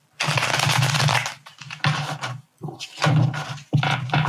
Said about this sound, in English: I kind of want to pull another card. So let's see what else comes out.